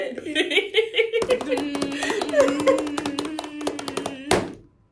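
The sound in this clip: Hands drum rapidly on a table in an improvised drum roll, a fast, steady run of taps under talking and laughter, ending with a sharp final hit.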